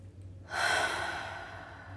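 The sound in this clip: One long deep breath, an airy rush that starts abruptly midway and slowly tapers off, heard alone without talk.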